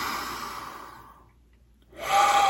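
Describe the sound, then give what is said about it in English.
Deep breathing during a guided breathing exercise: a long, airy breath fades into near silence, then a strong breath swells in at the end. “So let's take a couple big deep cleansers and we'll come back. So we're going to inhale.”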